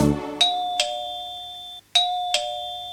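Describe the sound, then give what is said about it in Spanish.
A doorbell rings twice with a clear two-tone ding-dong chime, each pair of bright notes ringing out and sustaining, with a short break between the two rings. “¿Qué es? El timbre alguien tocó. ¿Qué es? Mi amigo que llegó.”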